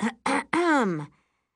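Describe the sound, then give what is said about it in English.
A woman clears her throat in a voiced 'ahem': two short bursts, then a longer one that falls in pitch, heard alone and moderately loud. “My mother clears her throat.”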